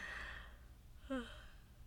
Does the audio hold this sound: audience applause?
no